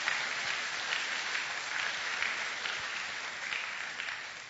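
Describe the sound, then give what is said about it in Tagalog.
A church audience applauding together during a sermon, a sustained, even wash of clapping that runs without a break for several seconds, with no voices over it. “Pwede bang palakpakan natin ng Panginoon?”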